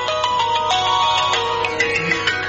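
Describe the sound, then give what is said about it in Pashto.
A mobile phone rings with a melodic electronic ringtone: a run of bright tonal notes repeats at steady loudness throughout, with no voices. “د موبایل زنګ دی، ځواب ورکړه.”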